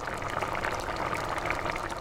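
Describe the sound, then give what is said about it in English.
Rice boiling in a pot in Alaska gives a steady bubbling hiss at an even, moderate level throughout, with no voices. “The rice has to cook for about 20 minutes, so Nina and I have some time to talk.”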